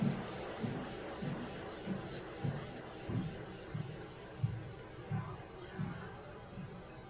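Footsteps of people walking upstairs, picked up from a basement during a ghost-hunting sweep: many soft, low thuds in a steady walking rhythm, faint beneath a constant hiss.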